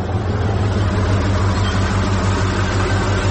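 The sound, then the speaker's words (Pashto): A lorry's engine on a road, a loud, steady low drone with a constant humming tone that continues unchanged throughout. “یو لارۍ خو راغله همدا لارۍ ته به لاس ورکم”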